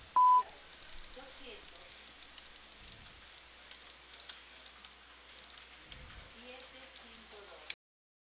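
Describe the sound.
A single short, loud voicemail beep sounds over a phone line after the recorded greeting, followed by faint, steady line hiss.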